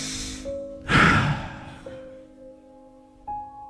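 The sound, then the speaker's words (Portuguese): A person breathing in and out deeply to show the air entering and leaving the lungs, one long, loud breath over soft, sustained background tones that shift between a few steady notes. “O ar que nós respiramos, você poder fazer assim, ó.”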